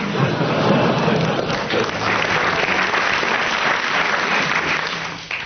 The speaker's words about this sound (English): You're getting bonuses of 10 marks each every time the audience applauses, so carry on.